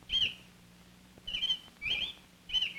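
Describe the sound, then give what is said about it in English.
A male robin singing near a nest where the female sits on eggs: four short, high chirps at an even spacing, faint over a quiet low background. “One week later, Mother is sitting on the nest while Father is singing nearby.”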